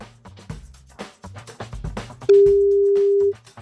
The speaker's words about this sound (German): Einmal noch klingeln. Einmal lassen wir noch klingeln.